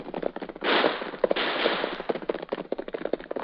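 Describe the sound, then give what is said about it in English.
Gunfire from a gunfight, staged as a sound effect in a Western radio drama: many rapid, sharp cracks fire in a steady volley, thickening into a dense, loud burst early on before thinning into separate reports. “We seem to have run into a gunfight.”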